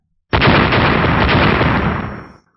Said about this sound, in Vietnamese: Mỗi một đầu Lôi Quỳ sau khi đụng vào liền phát ra một tiếng nổ rung trời